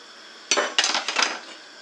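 Metallic clanks and clatter of a pan being handled in a kitchen during cooking: a few sharp, bright knocks in close succession, fairly loud, with no talk.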